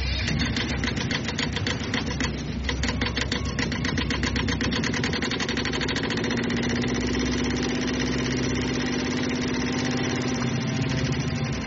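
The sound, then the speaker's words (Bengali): The engine of a fairly large boat carrying diving gear drones steadily as the boat sets off. A loud, continuous rumbling hum holds an even level throughout. “ছেলেদেরকে বোটে তুলে দিয়ে চলে গেলেন। Boat ছাড়ল Joseph Graham.”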